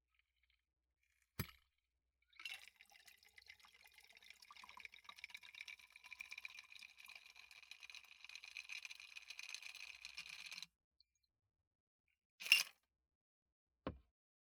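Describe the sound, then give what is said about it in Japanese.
An Alexander cocktail, freshly shaken, is poured into a glass: a quiet, steady trickling pour lasting about eight seconds, with a click before it and two short clinks after. “それじゃあ注ぐわね。”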